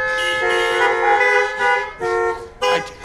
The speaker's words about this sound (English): Yes, go ahead, honk.